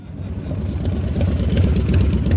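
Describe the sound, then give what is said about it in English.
Motorcycle engines rumble at a crowded bike night at Quaker Steak and Lube in Clearwater on a warm spring evening, a loud, steady, low idling drone that swells slightly in strength over the short stretch. “It's a Wednesday in mid-May and bike night at Quaker Steak and Lube in Clearwater. Hundreds of motorcycle riders gather in the warm spring night for music, food, and camaraderie.”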